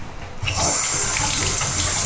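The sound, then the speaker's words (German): Hands rinsed under a running tap, water gushing and splashing steadily after a brief quieter start, continuing evenly to the end. “So, Hände abspülen. Hände abgespült.”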